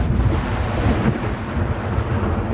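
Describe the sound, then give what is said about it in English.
Outgoing Israeli military strikes near the Lebanon border sound as a deep, continuous thunder-like rumble, loud and heavy throughout, with no voices. “Thunderous outgoing Israeli attacks are the northern border's drumbeat.”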